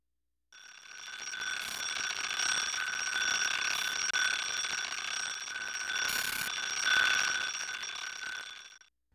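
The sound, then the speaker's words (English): An alarm clock rings without pause for about eight seconds. The bright, metallic, bell-like ringing holds steady and swells slightly in loudness toward the end, with no voices. “Now we will use Romberg's Clock 5 track, an alarm clock, which sounds like this”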